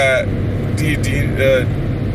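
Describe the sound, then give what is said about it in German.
Steady road and engine rumble from a car cruising on a motorway at about 124 km/h on cruise control. The broad, even noise holds without a break, and brief voice fragments show up above it. “Guck mal, wir dürfen hier 120 fahren. Ich fahre 124 mit Tempomat.”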